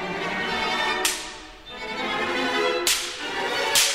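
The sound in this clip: Orchestral percussion whip cracks sharply three times over sustained orchestral tones, each snap bright and abrupt with a quick decay.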